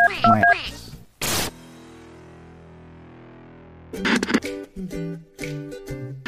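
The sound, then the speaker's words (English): Telephone keypad dialing tones, a few quick beeps at different pitches at the start, followed by a short burst of noise, a low sustained tone, and then louder clattering, tonal sounds. “Dial 1-900.”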